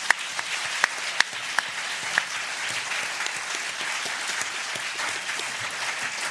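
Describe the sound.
An audience applauds to welcome a panel of speakers at a session, with steady, sustained clapping and a few sharper claps standing out near the start.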